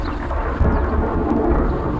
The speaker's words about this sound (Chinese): 俺看外面现在打雷打闪的，恐怕要下雨了。